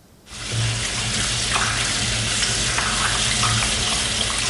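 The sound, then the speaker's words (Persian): Water runs from an open tap during a handwashing demonstration, a loud, continuous hiss that starts after a brief quiet moment and holds steady without pause. “این ویدیویی است که برای آموزش درست شستن دست‌ها پخش شد. آنچه بیش از همه مورد توجه بینندگانش قرار گرفت، باز بودن شیر آب و مصرف بی‌رویه آب بود.”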